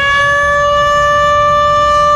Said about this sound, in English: Well, that's the noon siren. That's the noon siren.